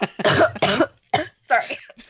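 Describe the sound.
Several rough, voiced coughs and sputters from someone choking after a drink went down the wrong way, coming in a few quick bursts with short breaks between them.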